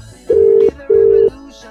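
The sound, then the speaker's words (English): Ringback tone of an outgoing telephone call: two steady, mid-pitched tone bursts of equal length, separated by a short gap, over a faint background hiss. “I mean, we could try them again, see if they'll pick up.”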